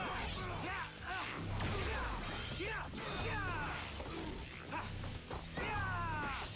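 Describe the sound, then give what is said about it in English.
Laser-sword sound effects come from a robot battle video game: humming, sweeping whooshes and crashing hits over a busy, steady mix of mechanical game noise. “You'll also notice the legally distinct sound effect for the laser sword thing, so that it's not technically a lightsaber.”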